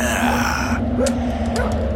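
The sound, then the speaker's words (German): A dog, apparently sick, barks and yips a few times in short bursts over a steady low hum. “Statt mit einer Flinte auf mich zu zielen, solltest du lieber diese Töle zum Schweigen bringen”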